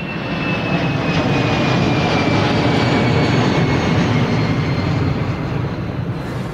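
An airplane coming in to land at Santa Cruz gives off a loud, steady engine roar that holds level throughout, with a thin high whine drifting slightly lower.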